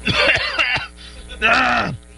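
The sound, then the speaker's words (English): Someone clears their throat loudly: a few rough, rasping bursts, a brief gap, then one longer gravelly rumble, with no speech around it. “Clear your throat.”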